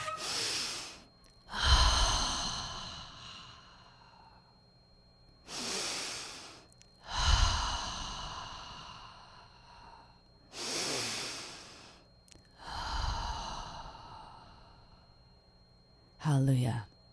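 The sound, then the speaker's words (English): Deep breaths in a guided breathing exercise: three slow cycles, each a loud, airy inhale followed by a longer, heavier exhale that fades, with quiet pauses between. A brief sharp intake of breath ends the sequence. “And there's sacred geometry associated with every breath you take. So let's do one. Let's do three.”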